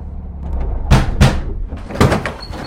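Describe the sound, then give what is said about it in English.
Back doors of a prison van are opened from outside: a few sharp, heavy clunks and bangs in two close pairs over a low, steady rumble. “Another guard opens the back doors from outside, and they lead the young man into the prison.”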